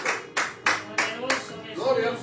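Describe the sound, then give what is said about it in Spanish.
A church audience applauding during a sermon, in four or five short bursts of clapping that each rise sharply and fade, with a voice speaking between and over them. “Denle un aplauso a Cristo, los que están aquí.”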